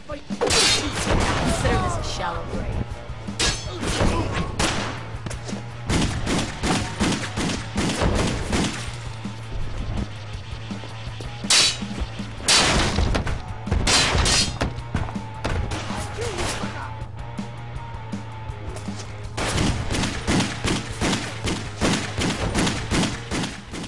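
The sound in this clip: Gunfire from a 2009 shooter video game, shooting down enemies: dense, rapid bursts of loud shots, crashes and booms run throughout over a steady low hum, with voices mixed in.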